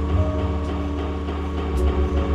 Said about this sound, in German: Um dem ein Ende zu machen, ging ich freiwillig in die Röhre. Kernspin.